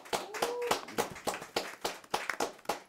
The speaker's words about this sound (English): Clap it up for